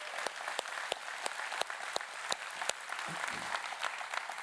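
Quiet applause from a church audience welcoming its other campuses and a partner church: soft, steady clapping with a number of sharper single claps standing out above the wash.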